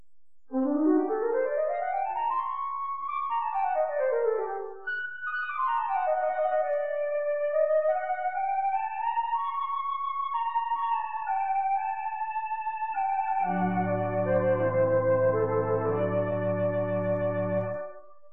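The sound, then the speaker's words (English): A Wurlitzer theatre organ flute stop plays a smooth, pure-toned solo melody that climbs and falls in gliding phrases, joined near the end by low sustained accompanying chords. “the Wurlitzer flute, which sounds like this.”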